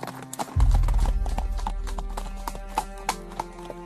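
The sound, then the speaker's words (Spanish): Horses trotting: brisk, rhythmic clip-clop hoofbeats with a low rumble underneath, loud and steady after a short quieter start. “¡Los caballos todavía pueden! ¡Órale, vámonos!”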